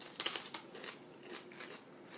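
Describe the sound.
A bite into a raw jalapeno pepper produces a few quiet, crisp crunching snaps near the start, which give way to faint crackly chewing noise.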